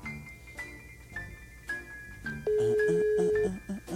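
A telephone ringback tone on an outgoing call: one steady low tone that lasts about a second, heard over background music with short repeated beeps.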